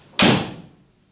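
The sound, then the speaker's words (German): A door falls shut with one sharp, loud slam whose ringing tail fades away over about a second. “Und die Tür fiel hinter ihr ins Schloss”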